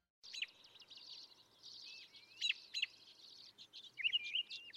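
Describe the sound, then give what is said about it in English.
A robin sings in spring, a faint stream of quick, high chirps and warbled phrases that follow one another almost without pause. “The sound you're hearing is spring beginning, the song of the robin.”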